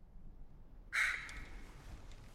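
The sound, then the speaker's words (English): A single loud, harsh caw from a large raven flying over a narrow crevice between two cliff faces: a brief rasping call that stands alone against a quiet background. “A large raven flies directly over him, following the line of the crevice.”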